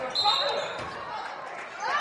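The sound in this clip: Basketball dribbled during a girls' high school game, with quick, fairly muffled bounces running under a commentator's steady talk.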